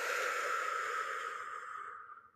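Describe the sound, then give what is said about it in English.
A long, deep exhale of breath, a soft airy rush that holds steady and then gradually fades to silence. “take a big deep breath in. Big exhale out.”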